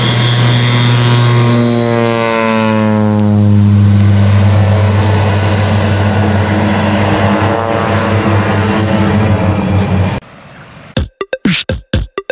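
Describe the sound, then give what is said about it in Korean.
A propeller airplane sprays herbicide over genetically modified crops, its loud, steady engine drone rich in harmonics and shifting in pitch. The sound cuts off abruptly, followed by several sharp clicks. “그래서 마구잡이로 막 뿌려요. 아, 비행기로 막 뿌립니다.”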